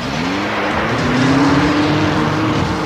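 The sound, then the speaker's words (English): Engines of animated vehicles driving out of a garage in a cartoon, with a loud, steady motor roar whose tone climbs gradually and then holds. “We see the Venom vehicles exit.”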